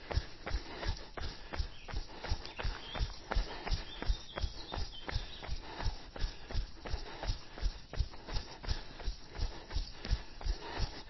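Footsteps of someone jogging outdoors during a fartlek run, a long, steady series of soft, evenly spaced thuds with a regular rhythm and no talking.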